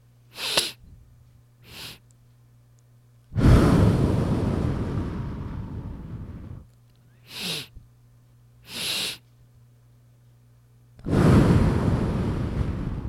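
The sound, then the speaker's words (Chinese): In a breathing exercise, two short sniffing inhales are followed by one long, full, breathy exhale. The sequence is done twice, separated by pauses, over a faint steady hum. “就是两吸一吐。那这两吸是怎么样呢？是你尽量吸气。然后再吸气一点点，然后再完整的完全吐干净，会听起来像是这样。”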